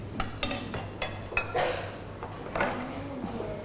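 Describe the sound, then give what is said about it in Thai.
Dishes, bowls and spoons clink in a washing basin, a few sharp knocks and clatters spaced irregularly at moderate loudness, with no talk. “เอาช้อนซ่อมขึ้นมาไปใส่ในเปลี่ยนกะละมังก่อนลูก”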